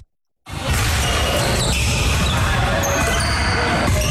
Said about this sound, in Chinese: 运球突破，起跳投篮，在江西南昌青山湖区社区体育馆内